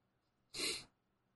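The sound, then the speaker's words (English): A single sneeze, a short sharp burst of about half a second that stands alone over a faint, quiet background. “I gotta sneeze.”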